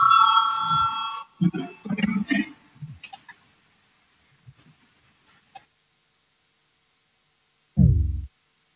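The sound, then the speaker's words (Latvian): A sustained electronic bell tone rings for a little over a second in a legislative chamber to call deputies to a vote. Scattered clicks, murmurs and faint knocks follow, and a short low thump comes near the end. “Lūdzu, zvanu, balsosim par 4. deputāta Valāņa priekšlikumu.”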